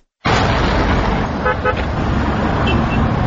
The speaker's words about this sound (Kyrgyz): Бул Жалал-Абад Сузак айлампасында майыны көргөндө жай жүргөн унаалар.